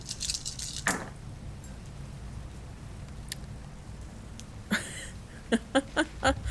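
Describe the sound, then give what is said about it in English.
Dice rolled for a Mage: The Ascension tabletop role-playing game, a quick run of sharp clicks and clatters near the end after a few scattered faint taps. “Oh, these new dice love me so much. That's going to be 5 successes. I rolled 2 tens again.”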